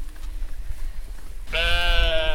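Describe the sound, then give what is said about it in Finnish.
Sheep bleat in a barn on a small farm with young lambs. After a low background rumble, one loud, sustained, wavering bleat rings out with rich harmonics. “Meillä on nytten hyväkin 36 lammasta.”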